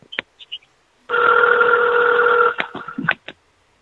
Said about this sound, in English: I want to answer that phone. It's ringing.